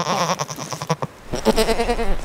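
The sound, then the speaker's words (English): Young pack goat bucks bleat at a trailhead in the Bitterroot Mountains of western Montana, giving a couple of loud, wavering, nasal bleats with a brief gap between them. “A lot of people have never seen a goat that packs.”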